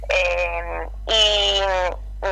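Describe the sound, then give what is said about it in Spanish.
A phone alarm going off, sounding as long buzzy electronic tones: two sustained beeps, each nearly a second long with a short gap between them, then the start of a third over a low steady hum. “Un segundito, me está entrando una alarma.”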